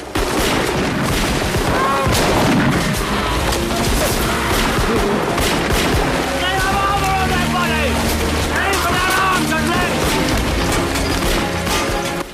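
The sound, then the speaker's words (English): Loud, dense gunfire as a gang of armed men shoots at police, with rapid volleys running continuously throughout and voices shouting in the midst of the shooting. “the gang step forward and aim their weapons. Police are mown down, their bodies jolting with the impact of the bullets.”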